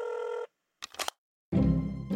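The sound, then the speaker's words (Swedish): A telephone number being dialed: a steady electronic tone, a pause, a quick cluster of sharp clicks, then a denser, noisier burst of tones. “Så att jag tänker att vi ringer upp honom igen och tar också ett snack med honom. Ja, ringa.”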